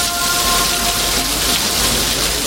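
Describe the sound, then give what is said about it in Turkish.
Heavy rain pours down in Bingöl, a steady, dense hiss of water that holds at an even, loud level throughout, with no pauses and no voices. “Bingöl'de de yağmur bardaktan boşanırcasına yağdı.”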